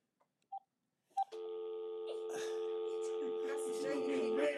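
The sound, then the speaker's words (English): Two short telephone keypad beeps as buttons are pressed for talk and speaker, followed by a steady, continuous dial tone with louder background noise building over it. “I'm pressing talk and hitting the speaker.”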